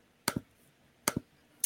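Clicking on a computer: two crisp double clicks about a second apart, with another click just starting as it ends, all quiet against a near-silent background.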